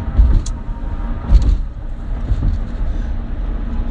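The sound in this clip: A car drives along with a steady low rumble of engine and road noise, broken by a few soft bumps, and no one speaks.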